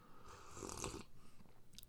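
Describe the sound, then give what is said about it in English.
A slurping sip of Honduran coffee during a taste test: one soft, airy slurp swells and fades in the first second, followed by faint mouth noises. “Apostle Anodia for giving us this amazing coffee that I have not tried yet. So, taste test.”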